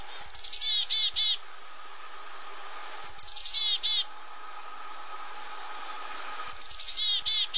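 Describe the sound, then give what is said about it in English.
Black-capped chickadee calling its chickadee-dee-dee call three times, each a high opening note followed by a quick run of buzzy, repeated notes, separated by pauses of a few seconds over a faint steady hum. “There are multiple types of chickadees that live in the United States, but the most common is the black-capped. One of their most well-known noises is their chickadee-dee-dee sound.”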